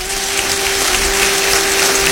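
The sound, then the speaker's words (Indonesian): Applause for a preacher in a church, a dense, even roar of clapping that stays loud throughout, with a constant steady hum running beneath it. “Siapa yang mau beri tepuk tangan bagi dia?”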